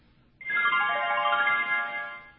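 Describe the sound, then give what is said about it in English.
A voicemail system's greeting tone sounds once: a loud synthetic chime whose bright harmonic notes step downward, then sustain and fade over about two seconds. “That is an annoying sound to be greeted with every time you access your voicemail”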